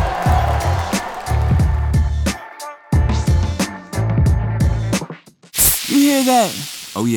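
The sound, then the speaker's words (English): Fizzing Mountain Dew soda gives a brief, sharp, bright hissing spray after a stretch of music, and a voice speaks right after it. “that's the fresh sounds of Mountain Dew.”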